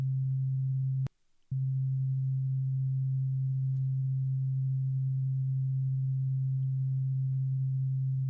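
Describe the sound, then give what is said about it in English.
A 7 hertz theta binaural beat sounds as one continuous low, pure hum that cuts out briefly near the start and then resumes, holding steady and alone to the end. “So it's just one continuous beat. Yeah, so this is a theta binaural beat.”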